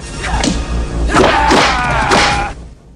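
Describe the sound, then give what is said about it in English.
A hard kick landing on the ribs during a fight: a few heavy, dull thumps mixed with swishing blows, loud and close together. “Fender throws a punch and Gibson blocks, wrenching Fender's arm round unnaturally in its socket and kicking him hard in the ribs.”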